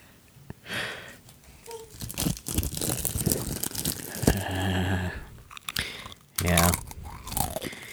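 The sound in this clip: Crunching and chewing ASMR mouth sounds, with bursts of crisp crunches and wet bites coming in uneven clusters, some loud and some soft, with brief pauses between them.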